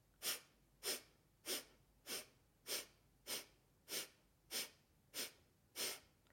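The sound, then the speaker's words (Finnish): Forceful nasal exhalations in a pumping breathing exercise while the navel is pulled in hard: ten quick, hissing puffs of breath in a steady, even rhythm, each sharp and short, faint overall and without talk. “Eli siellä on tosi voimakas se uloshengitys sieltä nenän kautta, ja samaan aikaan vedät napaa voimakkaasti sisään.”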